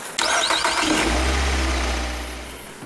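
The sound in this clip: A car engine starting: a brief cranking whir, then the engine catches and settles into a loud, low rumbling idle that gradually eases off.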